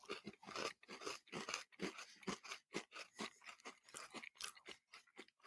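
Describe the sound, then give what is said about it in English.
Biting and chewing into a soft eggnog-flavored treat: many close, crunchy chews in a steady, uneven rhythm, with no talking. “Let's taste this thing. Ready? Here we go. Get a little bite in there.”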